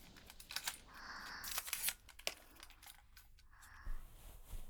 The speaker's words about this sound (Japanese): ちょっとカメラ動かすね。